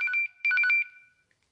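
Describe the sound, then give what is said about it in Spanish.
Electronic telephone ringtone signalling an incoming call: two short bursts of a bright, warbling trill separated by a brief gap, then fading out, with no voices. “¡Nos está entrando una llamada!”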